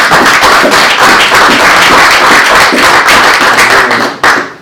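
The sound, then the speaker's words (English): Audience applause at a live stamp expertizing event in a museum: dense, loud, continuous clapping that holds steady for about four seconds before cutting off abruptly. “ladies and gentlemen, have a round of applause for”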